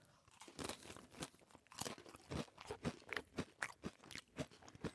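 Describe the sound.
Someone eating a crunchy snack flavoured with mustard, ketchup, mayonnaise and roasted onion: many quiet, crisp crunching bites in a quick, uneven chewing rhythm.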